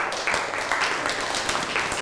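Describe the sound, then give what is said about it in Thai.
A class applauding a classmate: dense, steady clapping from many hands fills the whole moment at an even, fairly loud level without a clear break. “นั่งลงได้ครับปรบมือให้กับเพื่อน”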